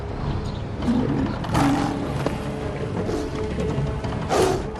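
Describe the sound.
Tigers roaring and snarling as they fight, a dense churn of growls rising into a few louder roaring surges, with no talk over it.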